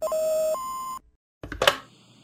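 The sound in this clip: An electronic phone-line beep signals a caller to speak: a steady mid-pitched tone, then a short higher tone, followed by silence and a brief burst of noise.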